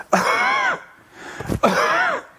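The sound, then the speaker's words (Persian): Two forceful, drawn-out voiced coughs, demonstrating the full-strength coughing to encourage in a choking person, with a short quiet gap and a brief breathy sound between them. “فرد رو باید تشویق کنیم به سرفه کردن. این سرفه کردن باید با تمام قدرت صورت بگیره، به این صورت.”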